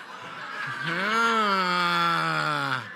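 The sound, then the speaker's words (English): Audience groaning at a joke during a Christmas sermon: one long, loud, drawn-out collective groan that rises briefly at the start and then holds steady before cutting off. “Okay, a groan is as good as a laugh to me.”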